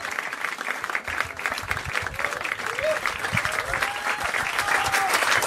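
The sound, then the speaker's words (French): Audience ovation for a jazz pianist at the Duc des Lombards club in Paris, dense clapping that swells slightly toward the end, with scattered voices mixed into the crowd. “Le pianiste Gerald Clayton sous euh, l'ovation du public du Duc des Lombards pour cette première soirée ici euh, à Paris.”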